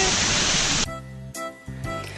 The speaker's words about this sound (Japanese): 大きい滝ではなくて小さい滝が流れていて、 音だけは一丁前だったよね